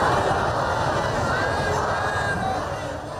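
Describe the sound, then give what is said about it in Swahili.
Roaring crowd of mourners filling the streets of Najaf, Iraq, for Iran's late supreme leader Ali Khamenei, a dense mass of shouting and chanting voices that eases slightly toward the end. “Umati mkubwa wa waombolezaji ulijitokeza katika mitaa ya mji wa Najaf nchini Iraq kumwomboleza kiongozi mkuu wa zamani wa Iran Ali Khamenei.”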